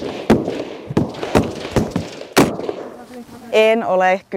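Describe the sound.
Several sharp gunshot cracks ring out at irregular intervals at a shooting range in Finland, where a group of women fire assembled weapons for the first time. A voice speaks briefly at the end.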